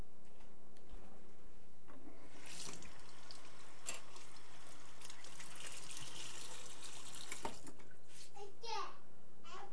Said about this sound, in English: Get washed up. I'm gonna put those in the sink.